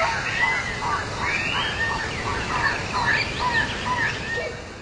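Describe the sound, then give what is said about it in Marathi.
Birds chirping in a forest of tall trees and green woodland: many quick, high twittering calls overlap throughout, over a steady soft hiss. “वाटेत उंच उंच वृक्ष, हिरव्यागार वनराई आणि पक्ष्यांचा मधुर किलबिलाट आपलं मन प्रसन्न करतो.”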